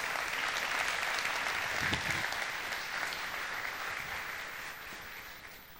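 An audience applauds to welcome a guest who is called up to the front. Many hands clap in a steady, fairly soft wash that gradually tapers off.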